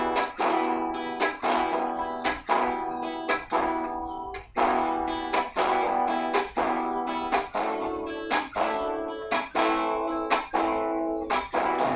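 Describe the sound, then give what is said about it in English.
Guitar strums a tango rumba pattern: thumb down, thumb up, then a muted middle and ring finger downstroke. Bright chords repeat in a steady, even cycle, played alone for several bars. “Yes, it's a tango rumba strumming.”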